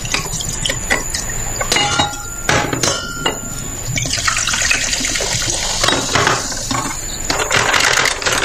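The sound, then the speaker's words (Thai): Liquor poured and mixed into a glass: a loud, steady rush of liquid runs throughout, broken by a few sharp clinks and knocks of glass. “อันนี้คือเสียงคนเหล้านะฮะ ชงเหล้าครับ”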